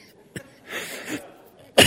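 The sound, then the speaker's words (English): A person coughs a few times, fairly quietly, with a rough, drawn-out stretch in the middle and a sharper, louder cough at the end. “notice I'm coughing a lot.”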